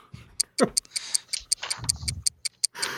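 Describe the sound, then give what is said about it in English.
A clock ticks with crisp, even, fast clicks that repeat steadily under intermittent talking voices. “Hey, can anyone else hear that ticking? Yeah, I can. Ticking.”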